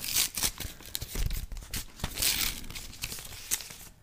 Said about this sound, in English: I'm crunching in my hand so that you can so you can hear this on actual paper. And now I'm opening it.